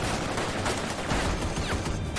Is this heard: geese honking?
no